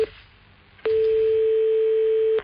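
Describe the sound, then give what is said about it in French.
A telephone tone after a cut-off call: a brief blip, a pause, then a steady mid-pitched tone held for about one and a half seconds before stopping abruptly. “Allô? Excusez-nous, on a été coupé.”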